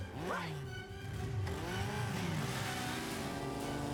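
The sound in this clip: Motorbike engines rev loudly and continuously, with several quick pitch sweeps up and down as the engines race.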